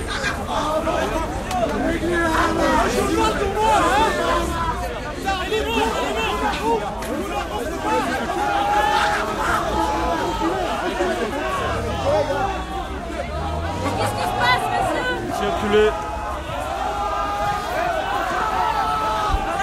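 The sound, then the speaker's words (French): A crowd of Egyptian protesters, blocked and encircled by riot police, makes a dense, continuous babble of many overlapping voices, with louder calls rising out of it now and then. “Ce qu'on entend, c'est le son des manifestants égyptiens qui ont été bloqués et encerclés par les CRS.”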